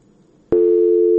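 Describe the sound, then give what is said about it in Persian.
A telephone busy tone after a caller's line dropped during a radio phone-in: a faint hiss, then a click and a loud, steady, unbroken tone that runs to the end. “تماس این شنونده ما قطع شد.”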